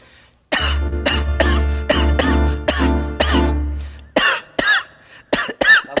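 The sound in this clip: Coughing during a comedy routine: many harsh, rough coughs in a quick, uneven series, loud and without talk. A steady low drone runs beneath the first two-thirds.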